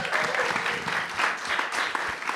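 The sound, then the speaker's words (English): An audience applauds a panel with dense, steady clapping that stays even in loudness from start to finish. “Round of applause one more time for our panel.”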